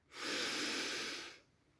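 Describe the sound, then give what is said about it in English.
A person takes one deep breath, a smooth and airy rush that holds steady for just over a second and then stops fairly sharply. A faint click follows in the quiet afterwards. “Let's take a breath.”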